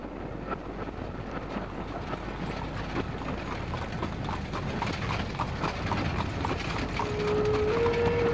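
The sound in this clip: Horses' hooves clip-clop in a steady rhythm as they pull a carriage, heard over a constant, rushing, wind-like background noise.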